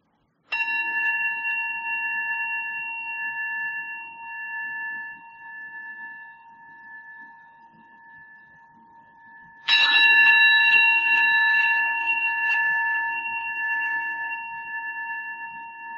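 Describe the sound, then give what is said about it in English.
A meditation bell is struck twice, several seconds apart. Each strike gives a clear ringing tone that sustains and slowly fades, and the second strike is louder than the first. “let the breath continue on its own, and we practice receiving the sound of the bell.”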